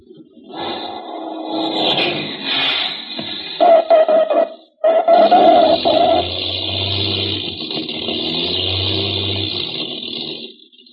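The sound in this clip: A small airplane engine drones steadily through a landing, a loud, even, buzzing hum with strong harmonics that cuts out briefly midway and then resumes just as steadily.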